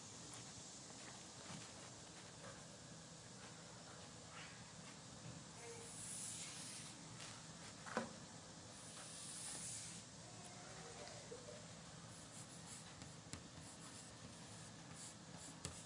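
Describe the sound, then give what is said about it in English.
Drawing on a board makes faint, steady scratching strokes over a low hiss that runs throughout, with one slightly sharper tap partway through. No talk. “So we're drawing this on the board.”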